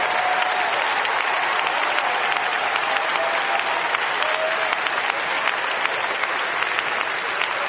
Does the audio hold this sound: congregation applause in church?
yes